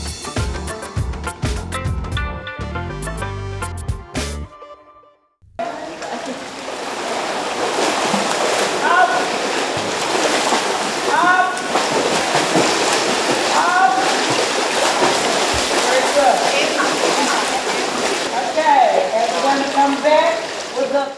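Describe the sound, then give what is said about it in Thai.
Splashing and sloshing water at a public swimming pool in western Sydney where women are learning to swim, steady and busy with voices mixed in, following a short musical opening and a brief silence. “นั่นเป็นเสียงจากสระว่ายน้ำสาธารณะแห่งหนึ่งทางตะวันตกของนครซิดนีย์ซึ่ง ผู้หญิงจากชุมชนเชื้อสายจีนหลายคนกำลังหัดว่ายน้ำ”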